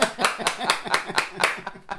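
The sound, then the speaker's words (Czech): Self-congratulatory clapping: a steady run of sharp, evenly spaced claps at a brisk, regular rhythm. “A zatleskáme si.”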